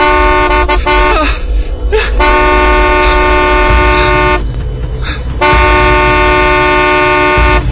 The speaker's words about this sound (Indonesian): Refleks dengan sekuat tenaga, aku menekan klakson mobilku.